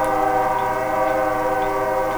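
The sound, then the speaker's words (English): A train whistle blows outside a studio, one loud, steady, sustained blast that holds an unchanging tone through the whole clip. “train, we know you're there. You can stop blowing the fucking whistle any goddamn time.”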